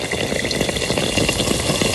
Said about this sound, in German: Frittierter Hefeteig mit so einem dicken, weichen Rand und in der Mitte sind die so hauchdünn